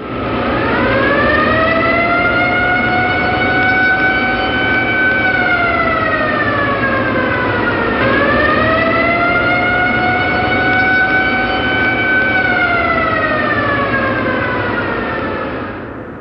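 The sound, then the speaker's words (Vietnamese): An air raid warning siren wails loudly and continuously, its pitch swelling up and then sliding slowly down in two long cycles, alone with no voices. “Còi báo động máy bay tập kích. Tôi và tên béo đang định nhổm dậy đuổi theo bóng đen kia, chợt nghe trong hầm phòng không vang lên tiếng còi báo động chói”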